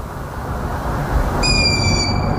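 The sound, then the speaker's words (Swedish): A long-eared owl call played from a recording: a single steady, high-pitched tonal call begins partway through and holds to the end over a constant low rumbling background. “Kan du spela upp den där andra? Vi kan ta den en gång till. Det är säkert hornuggla, men den låter lite annorlunda.”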